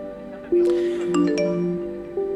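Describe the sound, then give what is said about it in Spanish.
A mobile phone ringtone plays a short electronic melody of clear, sustained tones that step between pitches, with a few bright, brief accents and a renewed note near the end. “Como es un celular que suena.”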